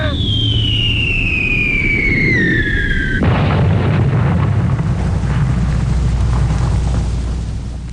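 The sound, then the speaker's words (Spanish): Explosion effect for an alien attack's green flash and wall of fire: a high falling whistle cuts abruptly into a loud blast, followed by a sustained heavy roaring rumble that stays dense and loud to the end. “¡Van a disparar! ¡Es un fogonazo verde! ¡Un muro de fuego!”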